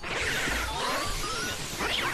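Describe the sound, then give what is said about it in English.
Health hearts dropping in the video game Luigi's Mansion: a continuous, noisy electronic rush with wavering, swooping tones. “The sound of the hearts going down.”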